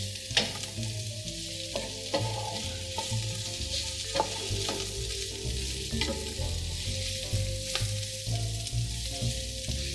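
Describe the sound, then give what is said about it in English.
Onions and garlic sizzle as they fry in a pan: a loud, continuous hiss full of fine crackles, broken by scattered sharp clicks of stirring, over a low steady hum, with no talking throughout. “And just listen to the sound, the sizzling, it's just wonderful. And the fragrance, of course, is phenomenal. Onion flavors without the tears.”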